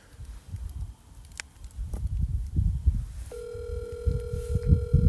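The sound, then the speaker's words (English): An outgoing phone call rings through to a host: a steady electronic ringback tone starts partway in and holds without a break to the end, over low rumbling background noise and a few soft knocks. “Right now, we are calling our host, Jamal. He is currently indisposed. Maybe we can get him on the horn right now.”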